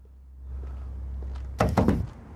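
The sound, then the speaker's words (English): Knocking on the window of a parked car: a few dull, hollow thuds close together, clearly louder than a low, steady hum that runs underneath from the start. “A woman appears and knocks on the car.”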